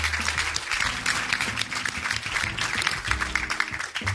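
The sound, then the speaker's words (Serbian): Audience applause for supporters of a charity house-building project, a busy crackle of many hands clapping at a fairly loud, even level, with low sustained tones running underneath. “tako da evo jedan aplauz za sve vas koji ste podržali projekat”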